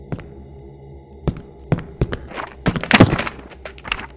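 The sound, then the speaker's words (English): Books tumble and scatter onto a library floor after someone trips over one: a run of dull thuds and thunks, a single thump first, then a quickening cluster of impacts that peaks in a loud burst before a few stray knocks. “He's tripped over the first book and sent several more scattering onto the library floor.”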